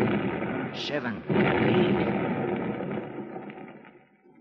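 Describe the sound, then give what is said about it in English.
Blasting charges going off in a mine shaft and bringing down rock: one heavy boom swells into a long, dense rumbling roar that slowly fades away over several seconds. “There's 9. Ah, that was a darn good round. Brung down a lot of rock. There's 10. I reckon I'll stick to this brand of fuse from now on.”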